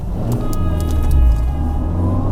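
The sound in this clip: A car driving along, its engine giving a steady, low rumble with a faint hum above it. The sound holds at an even, fairly loud level throughout, with no voices.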